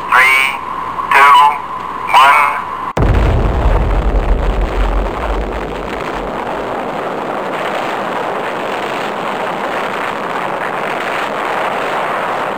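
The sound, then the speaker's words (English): An atomic bomb detonation at a desert test site: a voice speaks in three short bursts, then a sudden deep, booming blast breaks into a long, loud, steady roaring rumble that continues to the end. “the Ford area and take part in, in an atomic detonation. Detonation. Detonation. Detonation.”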